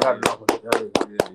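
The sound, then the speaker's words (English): A man claps his hands six times in a quick, even rhythm. The sharp, loud slaps stand out over a faint voice underneath. “He clapping it up for himself.”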